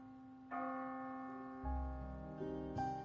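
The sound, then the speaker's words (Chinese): A church bell tolls faintly, with several spaced strikes whose ringing tones overlap and hum on between blows. “没有人看见他的离去只有教堂的钟声，默默回荡着凄凉伤感的音符。”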